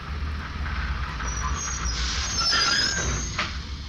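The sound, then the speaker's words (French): Wheels squealing as a train that often breaks down comes to a stop out on the open track. A thin, high screech rises over a steady low rumble and peaks midway. “Notre train est arrêté en pleine voie. Pour votre sécurité, veuillez ne pas descendre sur la voie. Ras-le-bol, ce train tombe tout le temps en panne.”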